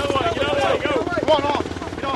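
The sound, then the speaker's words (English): A military helicopter at a supply drop on a field on a hillside: steady, loud rotor thumping and engine drone that runs throughout, under a voice talking. “As choppers land, the soldiers bucket brigade the water and food to the side of the field. The aircraft lifts off, and another one circles in to touch down.”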